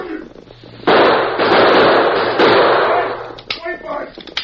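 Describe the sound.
Gunshots fired during a fight make a loud, dense burst of shots lasting a few seconds, followed by brief, quieter sounds.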